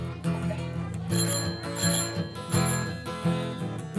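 A bicycle bell rings through an upbeat children's song at a festival, its bright metallic dings recurring about once a second over steady instrumental accompaniment.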